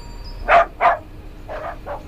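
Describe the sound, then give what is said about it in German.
A small dog barks four times: two sharp, louder yaps close together, then after a short pause two softer, shorter barks. “Aha, sie kommt schon. Sie hat einen kleinen Hund. Das ist schon mal gut.”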